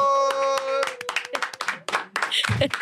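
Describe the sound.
A live show audience claps for a performer in brisk, scattered bursts that follow a held tone, with a voice speaking over the applause.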